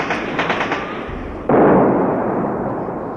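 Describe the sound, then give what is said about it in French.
Battle gunfire from heavy machine guns and mortar fire during a 1953 jungle assault in Indochina. A dense, rattling roar fills the sound throughout and jumps sharply louder about halfway through, then stays loud and sustained. “Ils nettoient la zone à coups de tir de mortier, de rafales de mitrailleuses lourdes et lancent des grenades.”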